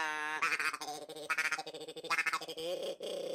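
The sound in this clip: A duck call is blown in a series of nasal, reedy quacking bursts, fairly quiet and rhythmic, with a few held notes between them.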